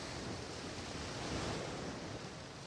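Ocean waves washing onto a warm sandy beach, a steady rushing surf roar that swells slightly midway and then eases, heard alone without voices.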